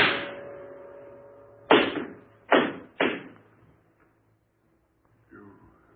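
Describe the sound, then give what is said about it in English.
Gunshots in a radio drama ring out as four sharp, loud bangs, each trailing off in a fading tail, the last three fired in quick succession, with a voice speaking briefly afterward. “You shot me. In cold blood.”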